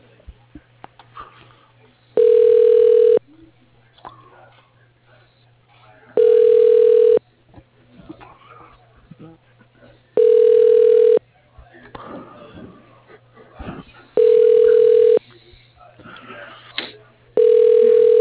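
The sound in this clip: Ringback tone on a telephone line as a call is transferred to voicemail: five evenly spaced tone bursts, each about one second long and roughly four seconds apart, with the last cut off at the end and faint muffled noise between rings.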